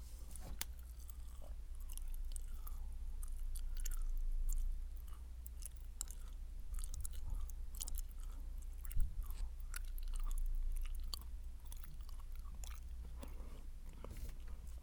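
Close-up chewing of raisins: many soft, moist crunches and small clicks in an irregular rhythm over a steady low hum.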